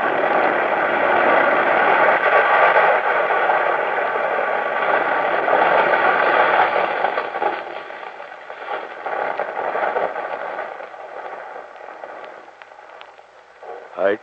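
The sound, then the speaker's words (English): A whole cliff collapses in a radio-drama rockfall effect, with a loud, dense rumbling roar that holds steady for several seconds. It then thins into quieter, scattered rumbling and fades. “the whole cliff's coming down.”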